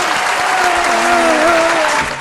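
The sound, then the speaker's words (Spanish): Crowd applause used as a sound effect: dense, even clapping that stays loud for about two seconds before easing slightly at the end. “¿No tenés un aplauso por ahí?”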